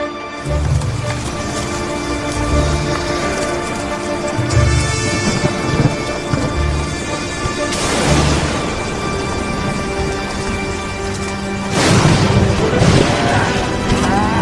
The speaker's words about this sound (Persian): عجب طوفانی، سیلاب بزرگ تو خیابون اصلی.